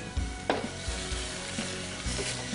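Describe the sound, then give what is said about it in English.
Quiet, steady sizzling as a splash of white wine hits a pan of nearly finished crispy bacon, with a few faint soft knocks from stirring. “The last thing I'm going to add, since this is almost done, is I like to add a little white wine. Also gets those nice bacon bits off the bottom.”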